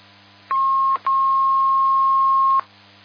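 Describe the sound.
Telephone line connecting tones: two steady mid-high beeps, a short one followed almost at once by a longer one, over a faint low hum.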